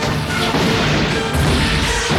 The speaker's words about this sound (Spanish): les hizo apuntar con sus cañones hacia las montañas desde donde los hunos les lanzaban sus flechas y les ordenó disparar. ¡Fuego!